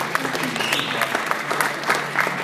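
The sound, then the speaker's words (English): Audience applause at a religious gathering, a dense, steady clapping from many hands that continues at an even, fairly loud level throughout. “Clap for everybody.”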